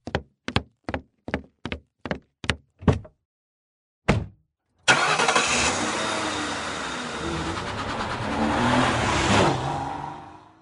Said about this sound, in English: I was waiting for the Prius to drive away.